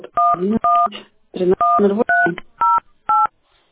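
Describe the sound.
Touch-tone keypad beeps from a telephone dialing a number: a series of short, clear two-tone bursts, loud and evenly spaced with brief gaps, running for several seconds.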